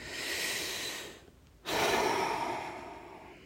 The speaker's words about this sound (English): Let's start with a long, deep breath together.